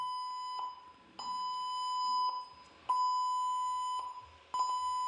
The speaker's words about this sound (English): What the fuck is this? Can you hear it? Can you hear that? Can you hear that? It's my PC.